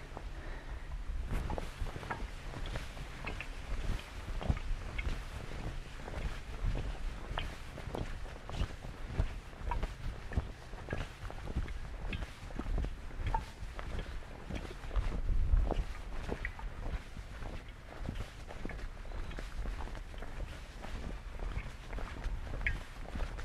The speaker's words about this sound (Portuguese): bastante vento hoje vai dar um trabalho fenomenal para o nosso querido produtor de áudio